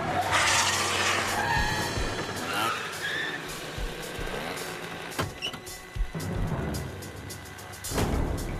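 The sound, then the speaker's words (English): Car tires skid and squeal as a car chasing a group of kids skids to a stop, a loud, harsh scraping rush with a strained squeal that fades into rumbling, followed by a short burst of noise near the end. “Another car chases the kids and Calvin's sneakers fall on the ground. The kids and car skid to a stop.”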